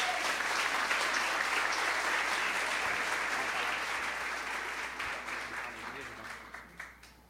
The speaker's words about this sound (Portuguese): Pode aplaudir o Senhor pela vida da Celina?